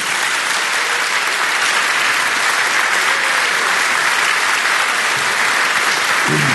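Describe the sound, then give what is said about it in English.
An audience claps to welcome a guest speaker onto the stage: dense, steady applause holds at an even, fairly loud level for over six seconds with no break. “Please give him a warm welcome.”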